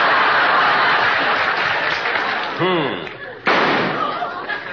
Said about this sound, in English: Yes, I shot him.